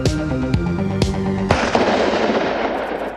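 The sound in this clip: Gunshots ring out as a few sharp, loud bangs with ringing tails, followed by a rough, crackling decay that trails off.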